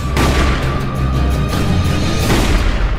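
Loud, booming gunfire in a western film scene: dense, rumbling blasts with heavy low-end weight that stay loud and continuous for the whole stretch, with no speech.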